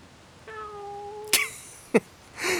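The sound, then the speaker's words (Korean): A cat gives a single drawn-out meow at a steady pitch, followed by a couple of short, sharp noises. “꽤 괜찮은 고양이군.”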